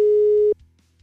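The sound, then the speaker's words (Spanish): A telephone tone heard while a call is being dialled: a single steady, pure electronic beep that holds for about half a second, then cuts off to near silence. “A ver, ya le estoy marcando, carnal.”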